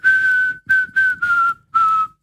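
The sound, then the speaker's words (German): Several clear whistled notes make up a short melody meant for blackbirds to copy. Each tone is sustained at a similar, fairly high pitch and separated by brief gaps, with nothing else heard. “kann ich ihnen eine Melodie vorpfeifen. Und die pfeifen die nach. Das ist wunderschön. So, meine Melodie würde mit einer langen Pause starten.”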